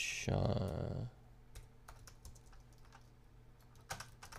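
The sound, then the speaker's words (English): A note being written down, heard as faint, scattered key clicks after a brief voice, quiet and irregular with short pauses between taps. “I'm gonna write that down. Frame mission statement.”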